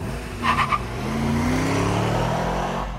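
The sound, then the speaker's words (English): A car drives away, its engine a steady, loud rumble that rises gradually in pitch as it pulls off. “As Easton drives away, I think about his advice.”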